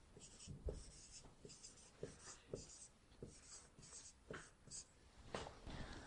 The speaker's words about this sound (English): And you can, while I write it, you can read it and you can try to observe it.